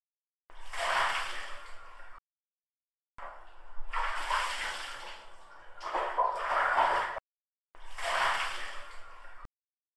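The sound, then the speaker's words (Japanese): Hot water rinses off after scrubbing, heard as several soft, broad splashing and pouring bursts of a few seconds each with short quiet gaps between them. “最後はまたお湯で流していきますね。”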